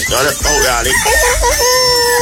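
A man imitates a rooster crowing, loud and alone, in one long, strained call whose pitch wavers up and down through several bends before settling into a held, nasal note.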